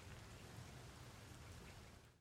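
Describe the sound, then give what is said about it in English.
Rain falls outside in a steady, soft hiss of many drops, faint and even throughout, then thins out just before the end. “Okay, well, it's kind of raining out here.”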